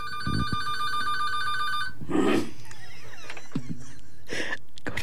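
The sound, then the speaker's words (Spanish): A telephone rings with an incoming call, a bright repeating ring lasting about two seconds, then stopping and giving way to a few soft knocks and handling noises. “Ahí vamos a tomar la llamada.”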